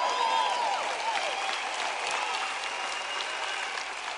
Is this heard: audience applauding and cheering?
yes